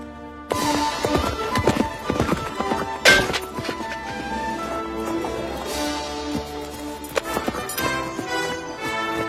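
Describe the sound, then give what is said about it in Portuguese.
Horse hooves clop while someone rides in a dubbed film. There are many quick, irregular hoof strikes, with a few louder thuds among them, and they carry on throughout. “Andar a cavalo é mais fácil do que eu pensava.”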